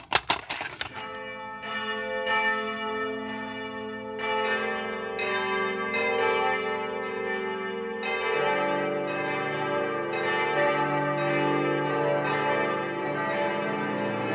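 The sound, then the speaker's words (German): Church bells of Stuttgart's collegiate church ringing for a special church service: many loud, overlapping rhythmic strikes with long, shimmering ringing tones that carry on throughout. “Die Glocken der Stuttgarter Stiftskirche läuten zu einem ganz besonderen Gottesdienst, dem großen Leipziger Gottesdienst.”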